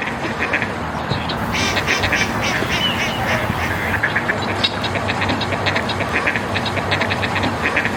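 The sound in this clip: Duck quacking: many rapid, nasal quacks in clustered bursts repeat throughout, standing out over a steady layer of background noise.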